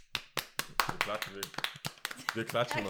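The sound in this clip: A brief burst of hand claps from a few people, sharp and uneven, gives way to people talking over the last part.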